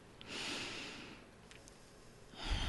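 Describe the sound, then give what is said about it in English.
A slow deep breath drawn in, soft and airy, then a quiet stretch before another breath begins near the end. “Take a deep breath.”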